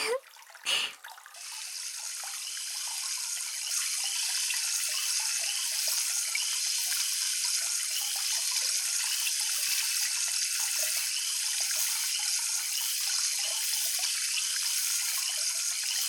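Water runs steadily from a tap to rinse someone off. A few brief splashes open it, then a bright, continuous hiss of flowing water holds at an even level to the end, with no talk.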